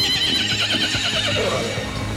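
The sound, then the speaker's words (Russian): Horses neigh as a golden carriage drawn by six horses pulls up: a loud, wavering, high-pitched whinny with a trembling vibrato that fades slightly at the end. “Тут подлетела к царскому крыльцу коляска золоченая, в 6 лошадей запряженная.”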